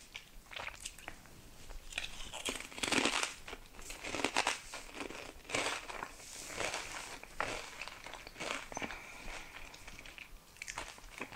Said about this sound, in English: This link is titled ASMR Whisper Eating Sounds Potato Chips. This is probably gross.